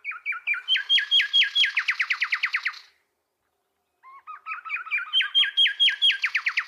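An endemic Ethiopian songbird sings two bursts of rapid, repeated high chirps that quicken into a dense trill. A brief silence separates the first phrase from the second, which builds back up to the same bright trilling.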